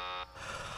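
A game-show buzzer gives one short, harsh, harmonically rich buzz. It cuts off after about a quarter second, and a low hiss remains.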